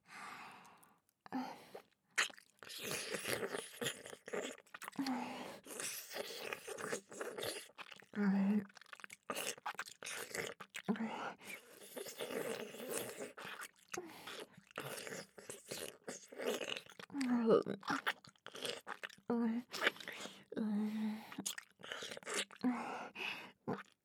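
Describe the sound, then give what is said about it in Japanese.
Wet, close mouth sounds of ear-eating ASMR, worked deep into the ear: a dense, continuous stream of small smacks, clicks and crunchy nibbling noises at a fairly even level. “次はお耳深くを食べていきますからね。”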